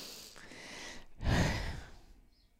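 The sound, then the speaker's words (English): A deep breath drawn in during a calm, guided relaxation moment: a soft, breathy rush that swells in the middle and then tapers away, heard alone without talk. “the hard part though, really is only your willpower because we could actually stop right now and take a deep breath in.”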